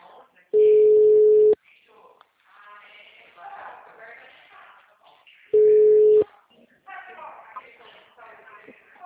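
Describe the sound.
Steady, low telephone call tones sound twice, each lasting about a second, with quieter talk between and after them.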